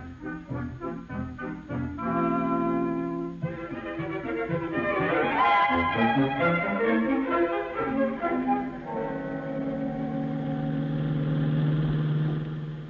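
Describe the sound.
A taxi cab engine drones steadily as the car drives along, its hum shifting in pitch as the vehicle changes speed, continuous throughout.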